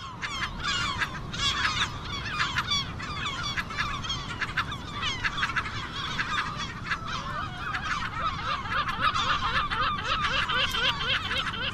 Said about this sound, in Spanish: ¿dónde nos lleva este sonido? Bueno, estamos en las Islas Sisargas, en donde empieza Costa de la Morte, en una isla ahí no muy separada de la costa